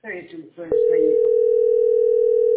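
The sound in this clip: A telephone dial tone, heard while a number is being dialled, follows a few words of speech. It is a steady, unbroken tone that holds evenly to the end.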